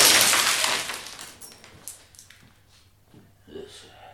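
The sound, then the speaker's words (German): A window pane is smashed: a loud, bright crash of shattering glass at the start decays over about a second. Scattered small tinkles of falling shards follow over a faint low hum. “Ich habe gerade ein Fenster eingeschmissen.”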